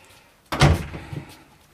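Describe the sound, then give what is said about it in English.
A door is opened with one sharp bump, then a softer rattle a moment later. Both sounds are fairly faint and there is no talk. “I'll get the door for you, Peggy”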